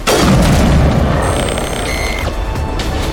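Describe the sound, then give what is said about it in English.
A sniper rifle fires in a video game, used for a no-scope shot: one loud, sharp boom at the very start, followed by a long decaying rumble and thin tonal game sounds. “Hey, let's no-scope somebody with a sniper rifle.”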